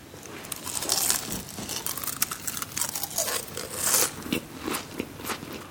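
Someone bites into crispy fried koshiabura tempura, giving a continuous run of crackling, crunchy bites and chews at moderate loudness, with no talk over them.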